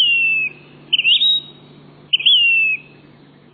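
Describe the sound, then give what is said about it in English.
Phoebe calls: three clear whistled notes, each sliding downward, with the first starting right at the opening. Pauses separate them, and a faint steady low hum runs underneath. “This month also brings phoebes. Eastern phoebes east of the Rockies. And Say's phoebes in the west.”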